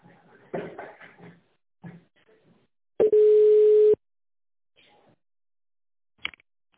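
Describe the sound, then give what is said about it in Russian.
A telephone line tone plays while a call is transferred: a single steady, loud, mid-pitched tone of about one second. A faint recorded voice comes before it, and a sharp click follows later in near silence. “Если ваш вопрос не относится ни к одной из указанных категорий, оставайтесь на линии, ваш звонок будет переведен на специалиста.”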